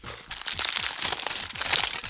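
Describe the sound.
Aluminium foil crinkles as a small foil-wrapped object is handled, making a dense, continuous crackle of sharp crisp rustles that runs steadily throughout, with no voices.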